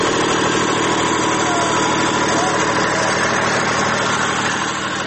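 A large generator running outside the electricity department in Lashkar Gah, where small traders sell plastic goods: a loud, steady engine drone with constant vibration that holds level throughout.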